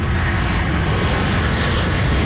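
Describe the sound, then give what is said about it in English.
Loud, steady aircraft engine roar from a plane carrying wildfire crews from Mexico as it touches down in Abbotsford; a continuous, dense rumble runs without a break, with no distinct single impact. “Plane carrying over 100 firefighters from Mexico touched down in Abbotsford.”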